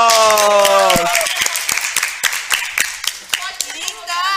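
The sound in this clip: Applause welcoming a guest on stage, heard as a run of brisk, evenly spaced claps after a short tonal opening, with sound continuing beneath the clapping.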